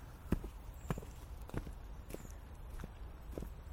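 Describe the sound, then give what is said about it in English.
Footsteps walking up some steps outdoors: a steady series of dull thuds at an even pace, each a soft, low impact over a light background hiss. “Walking by the side of me. Ah. Walking up some steps.”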